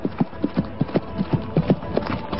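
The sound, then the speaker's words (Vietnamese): Hooves of a horse being whipped into a run after its rider mounts: many rapid, evenly spaced clip-clop beats in a steady rhythm, loud over a dull rumbling background. “Nói xong, chàng chắp tay từ giã, xoay người nhảy lên ngựa, ra roi chạy ngay.”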